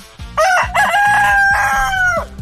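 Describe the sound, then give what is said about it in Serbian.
Rooster crowing as a morning wake-up call, a loud, strained cock-a-doodle-doo with long sustained high tones, set over a pulsing, rhythmic music beat. “Đura je treći član najboljeg jutra, naš petao budilnik, zato što je jedini i pravi budilnik, hit budilnika, jedini i pravi budilnik je kada vas probudi petao”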